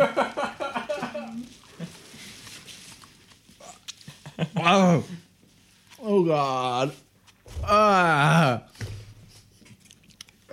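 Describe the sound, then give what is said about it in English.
Someone gags and retches while trying to swallow a whole tomato in one go, giving several loud, strained, voiced heaves among wet chewing sounds. A person also speaks briefly. “I tried to swallow it in one go and my body did not. I apologize. I know some people really hate those kind of gag noises”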